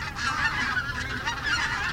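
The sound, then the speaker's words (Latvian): A crane calls as it flies away, with loud, continuous honking trumpet-like cries that waver slightly in tone, heard alone. “Dzērvis? Dzērvis. Jā, lido prom.”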